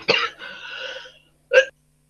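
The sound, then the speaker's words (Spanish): A woman coughing: a sharp cough burst, a longer breathy, rasping stretch, then a second short cough after a brief pause. No talking. “está con tos la compañera”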